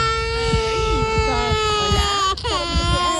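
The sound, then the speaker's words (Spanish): A two-year-old child cries in his mother's arms while the family sleeps rough outdoors on the ground. The cry is a sustained, high, wavering wail with a brief catch near the end, and an adult voice talks underneath. “El pequeño llora”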